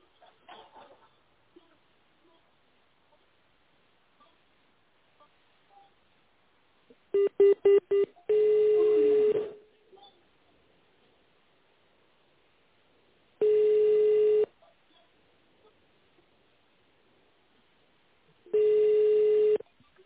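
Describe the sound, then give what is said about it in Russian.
Touch-tone keypad beeps dial an extension on an office phone line: a quick run of short tones, then three long, evenly spaced ringing tones separated by near silence. “Если вы знаете внутренний номер сотрудника, наберите его в тоновом режиме или дождитесь ответа секретаря.”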